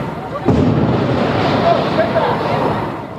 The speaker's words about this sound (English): A TV reporter gets ready for a live report in New York and got a lot more than she bargained for when a manhole behind her exploded.